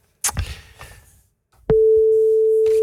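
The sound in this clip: A telephone line tone as a call is placed: a few soft clicks and rustles, then a steady, unbroken mid-pitched tone that holds loudly until the end.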